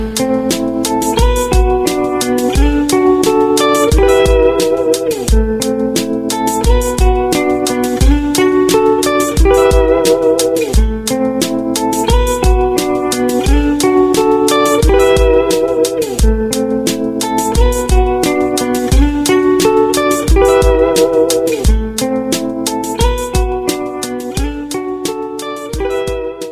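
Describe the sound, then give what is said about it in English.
An arpeggiated four-chord progression cycles repeatedly, loud and steady, with no voices. “we arpeggiate these four chords in a repeating progression. It sounds like this.”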